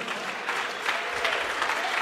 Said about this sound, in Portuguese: Vamos receber o pastor com um aplauso bem forte para Jesus.